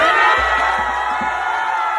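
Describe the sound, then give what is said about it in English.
A giant crowd cheers and whoops at a public event celebrating Kamala Harris and Joe Biden, a loud, sustained roar of voices with a few low thumps underneath. “There she is out with a giant crowd for Kamala Harris and Joe Biden.”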